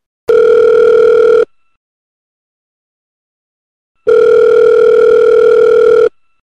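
A telephone rings for an incoming call: two long, loud, steady electronic tones, the second longer than the first, separated by a few seconds of silence. No voices are heard.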